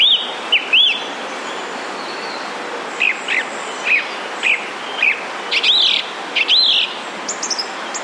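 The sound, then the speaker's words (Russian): Song thrush song: bright, high, clear phrases, each repeated in pairs, with short pauses between phrases and a steady faint hiss beneath. “Певчий дрозд повторяет по два раза.”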